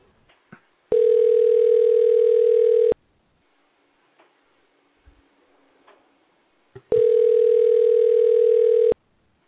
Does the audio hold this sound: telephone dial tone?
yes

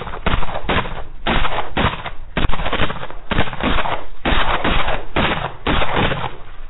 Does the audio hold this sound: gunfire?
yes

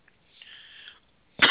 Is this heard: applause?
no

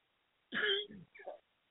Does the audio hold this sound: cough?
yes

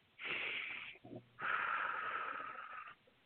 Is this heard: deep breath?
yes

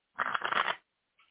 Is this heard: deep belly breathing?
no

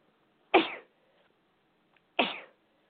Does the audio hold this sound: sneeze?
yes

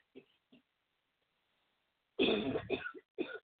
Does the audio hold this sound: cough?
yes

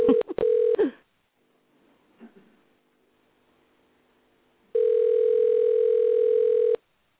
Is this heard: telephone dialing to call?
yes

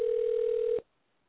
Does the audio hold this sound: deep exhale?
no

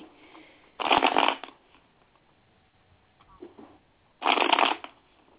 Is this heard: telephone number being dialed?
no

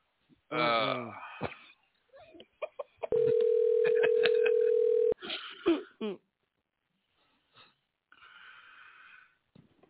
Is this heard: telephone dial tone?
yes

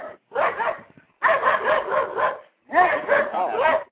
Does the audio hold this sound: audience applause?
no

